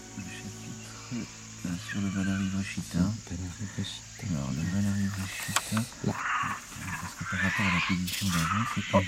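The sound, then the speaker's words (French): Monkeys call near a country house in India. Many overlapping harmonic cries and chatters rise and fall over a constant high insect-like buzz, with no pause between them. “Voilà nos amis les singes.”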